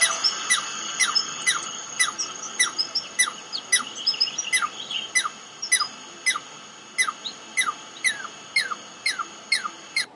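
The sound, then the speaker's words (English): A Douglas squirrel, the native squirrel of the Pacific Northwest, makes many sharp, high-pitched squeaky chirps. The calls come in a steady, evenly spaced series, clear over quiet background. “That was not a bird and not a bug, but the only native squirrel of the Pacific Northwest, the Douglas squirrel, sometimes called the chicory.”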